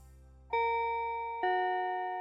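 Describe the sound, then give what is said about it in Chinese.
An elementary school's break bell rings as two clear, resonant chime strikes about a second apart, each sustaining and slowly fading with no voices. “下课铃响了，现在是鱼菜国小的大下课时间，有好多的小朋友都跑到操场来哦。”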